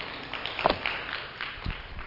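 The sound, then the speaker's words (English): A church audience claps hands during a worship service, a fairly quiet and even patter of clapping with a few sharper hits scattered through it. “Let's give the Lord a clap offering. He's worthy of at least that much.”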